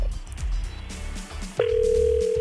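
A telephone dial tone on a phone call begins abruptly partway through: one steady, continuous mid-pitched tone that holds to the end, after a stretch of busier background sound.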